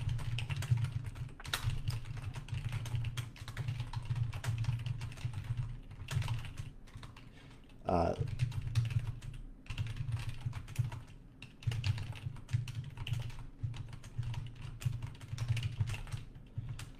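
Typing a quick note to a web developer on a computer keyboard: a steady stream of many fast, light key clicks, unbroken for the whole stretch, with a low steady hum underneath.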